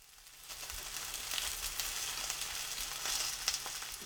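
Sardines fry in a frying pan over medium heat with a steady, quiet hissing sizzle, scattered tiny pops and crackles, swelling slightly midway.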